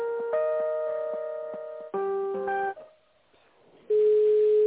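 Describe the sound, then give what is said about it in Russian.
Telephone line tones play as a call is transferred to an accounting department: a steady held tone, then a change to a different tone, a brief quiet gap, and another steady tone at the end. “Сейчас я вас в бухгалтерии соединю, минутку.”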